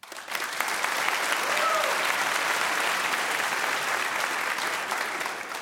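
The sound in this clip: Steady audience applause welcoming a 17-year-old violinist onto a stage, a dense, even patter of many clapping hands that holds at full strength for several seconds and eases slightly at the end.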